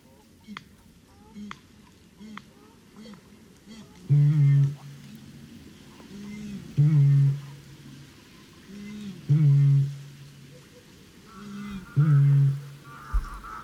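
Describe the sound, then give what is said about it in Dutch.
A Eurasian bittern calls from reeds with four loud, deep booms at regular intervals. Each boom is preceded by softer low grunts, and thin higher bird calls can be heard early on. “Ja, dit is de roerdomp.”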